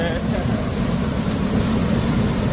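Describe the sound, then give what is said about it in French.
Rushing water pours back into a river as sand is pumped out through piping at about 120 cubic metres per hour. The roar is loud, dense and unbroken throughout. “Et là, maintenant, l'eau va retourner au fleuve. Oui.”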